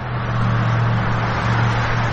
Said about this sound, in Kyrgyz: Сырттан карасаңыз, Сауд Арабиянын көчөлөрүндөгү автоунаа кыймылы дүйнөнүн башка өлкөлөрүнөн дээрлик айырмасы жок. Көнүмүш унаалар, көнүмүш тоуштар.